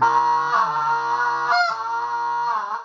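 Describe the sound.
A beginner blows a goose call, producing a long honking note that wavers and breaks, jumping in pitch a couple of times instead of holding steady.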